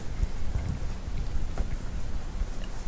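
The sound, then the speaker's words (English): Heavy rain comes down as a steady, dense rushing noise with a strong low rumble, holding an even level throughout without pauses. “oh, it's raining hard.”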